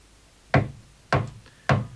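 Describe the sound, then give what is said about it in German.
Knuckles knock on a door three times, single hollow raps evenly spaced about half a second apart, each clear and fairly loud against a quiet background. “Sie müssen anklopfen. Nochmal.”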